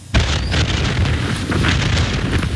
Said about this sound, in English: Meantime, more Israeli airstrikes struck parts of southern Lebanon amid continued fighting between Israel and Hezbollah.